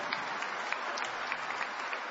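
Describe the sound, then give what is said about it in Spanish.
An audience applauds during a church service, soft, steady clapping with faint individual claps popping out of the even patter. “Dale aplausos a él.”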